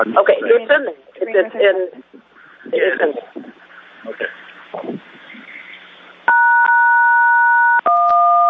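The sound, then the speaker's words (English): Loud telephone keypad dialing tones during a committee meeting: after a stretch of people talking, two sustained, steady dual-pitched beeps sound, the second following right after the first. “Dialing loudly.”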